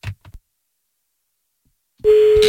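Telephone tone while placing a call: after a few short faint sounds and near silence, a steady, loud tone starts abruptly and runs to the end.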